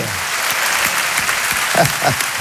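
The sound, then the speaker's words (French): An audience ovation on a French show erupts as a dense, steady wash of applause that stays loud and even for the whole stretch, with no break in the clapping. “C'est déjà un exploit, ça mérite une ovation. Ovation pour Jean-Paul André, s'il vous plaît.”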